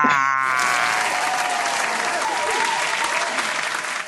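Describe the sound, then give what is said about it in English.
Audience applauding as a guest is introduced on stage: loud, dense, continuous clapping that eases off slightly toward the end. “Ladies and gentlemen, put your hands together for Howard Knight!”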